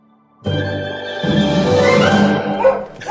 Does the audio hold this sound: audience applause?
no